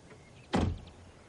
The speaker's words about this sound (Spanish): abre la puerta y se apea.